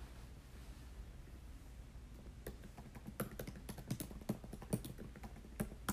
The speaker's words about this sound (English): Let me write that down.